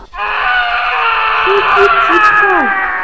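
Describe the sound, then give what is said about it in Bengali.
A terrible, sustained scream follows the fall of a heavy object: a loud, high, wavering wail lasting about three seconds, its pitch bending downward near the end. “হঠাৎ একটা ভারী জিনিস পড়ার শব্দ হলো সঙ্গে সঙ্গে ভয়ানক এক আর্তনাদ”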